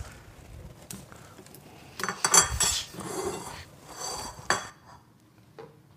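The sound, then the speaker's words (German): Plates and cutlery clatter as two plates are handed over for serving homemade bolognese sauce, a few short clinks and knocks in quick succession, with the busiest clatter near the middle. “Wenn du mir zwei Teller geben würdest, könnte ich anrichten.”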